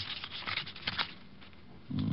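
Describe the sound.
Papers and cards rustling as a dead man's wallet is searched: a few soft, faint crinkling bursts close together, then quiet.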